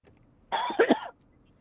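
A short coughing fit caused by a tickle in the throat, a brief rough burst with two quick pulses near its end, heard alone.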